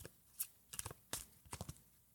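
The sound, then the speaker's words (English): A deck of playing cards being shuffled in a few short, quiet bursts of riffling and flicking, separated by brief pauses. “I had 2 cards left, so I am shuffling. So hopefully some of these face cards will come back.”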